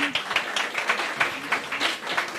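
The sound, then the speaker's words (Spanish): Applause from a group of people, many separate claps clearly audible within a steady, moderately loud patter that keeps up without a break. “pedirles también un aplauso para el equipo de Suma Radio Pachuca”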